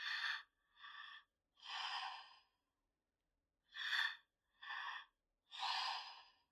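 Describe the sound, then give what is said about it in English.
Deep breaths drawn in through the mouth in two sets, each set made of two short airy intakes followed by a longer breath, with a clear pause between the sets and no talk. “And just fill that last little 15% up on the second breath into your chest. So again, looks like this in my body. Or through the mouth.”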